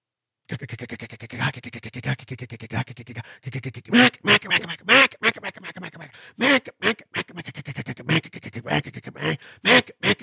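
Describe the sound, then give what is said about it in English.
A mallard hen's bouncing hen call blown on a duck call: a long run of clipped, raspy quacks, first a fast even series, then louder, uneven bursts with short gaps between. “so there's a couple different variations of that bouncing hen.”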